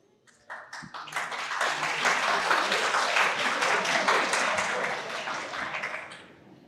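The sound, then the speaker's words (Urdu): Audience applause at a university question-and-answer session: a few scattered claps quickly build into dense, loud clapping that holds steady for several seconds, then tapers off at the end. “تالیاں بجاتا رہے گا پاکستانی جوان”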